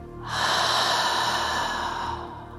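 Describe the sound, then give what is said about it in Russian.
A single long, airy breath from a guided breathing exercise of drawing air in through the nose and out through the mouth. It rushes steadily at moderate loudness and fades at the end, with no talk. “И еще вдох через нос. И выдох через рот.”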